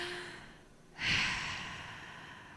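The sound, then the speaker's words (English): A group takes a deep collective breath: one soft, breathy exhale like a sigh swells up and then trails away slowly. It is quiet and comes without speech. “Let's all take a deep collective breath.”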